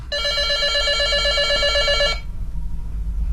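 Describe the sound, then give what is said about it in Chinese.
A telephone rings with one steady, loud, bright trill that lasts about two seconds and then cuts off, leaving a low hum. “好，来，电话来了，来电话。”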